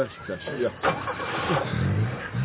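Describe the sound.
A car engine starts and runs at a low, rough rumble beneath people talking.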